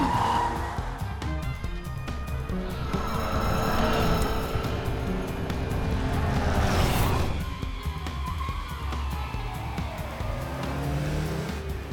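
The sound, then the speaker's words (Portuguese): A car accelerates hard on a cliff road in an animated dub, its engine roaring steadily with squealing tires and a rising surge midway. “Acelera! Tô tentando não cair do penhasco. Acelera, senão eu te jogo o penhasco abaixo.”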